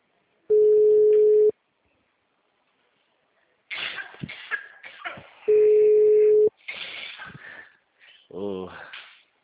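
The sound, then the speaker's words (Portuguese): Telephone ringback tone while a caller waits for a client to answer: two steady, even tones of about a second each, with a voice talking in the gap between them and again after the second tone. “Eu aqui esperando o cliente atender.”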